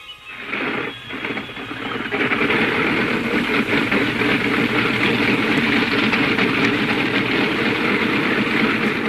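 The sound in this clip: Aircraft propeller engine starting, with uneven sputtering at first, then settling into a steady, loud, droning roar that continues to the end.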